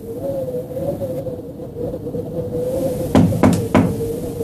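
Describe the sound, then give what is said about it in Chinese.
Knocking on a hotel room door: three quick, sharp knocks close together near the end, loud over a steady low hum that runs throughout. “陈独秀居住的旅馆房门果然响起了敲门声”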